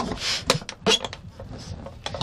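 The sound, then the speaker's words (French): A blade cuts the inner bottom rim of an aluminium drink can while a horn is being made from it. Fairly quiet, irregular short metallic ticks and scrapes follow one another. “Donc la canette repose sur son bourrelet du cul qui voilà, et donc il va falloir couper l'intérieur, ce qui est la partie intérieure du bourrelet du cul.”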